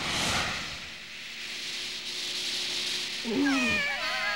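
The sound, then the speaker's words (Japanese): A cat lets out a single clear meow near the end, following several seconds of steady, soft hiss. “え、何なんだよその猫の声は。”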